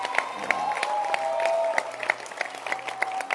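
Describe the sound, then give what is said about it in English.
A church audience claps their hands in dense, sustained applause, the rapid overlapping claps forming a steady wash that holds for the whole stretch, with some crowd voices audible beneath. “Let's appreciate her. Let's clap our hands for her.”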